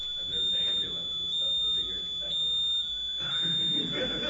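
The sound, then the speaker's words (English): An alarm sounds after a power cut, a steady high electronic tone running through the whole clip while people talk over it. “Who set the alarm off? When the power went off. Oh, it set the alarm off?”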